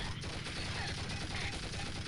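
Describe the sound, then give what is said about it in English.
Sustained automatic fire from a chain gun wielded by an enemy in a video game, a dense rapid rattle of shots running without a break, fairly faint and with no voices. “She's got a chain gun.”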